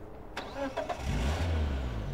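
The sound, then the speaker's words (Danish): A car starts up and drives slowly away after the driver has carefully shut the door; a few short clicks come first, then a low engine rumble swells and holds steady. “Og kører langsomt væk”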